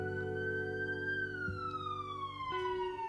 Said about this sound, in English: I'm sorry if you hear sirens in the background.